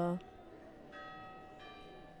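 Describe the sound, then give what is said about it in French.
Church bells ring the hour in the evening, sounding a few faint, sustained tonal strokes over steady street background noise. “Et maintenant, il y a aussi les cloches.”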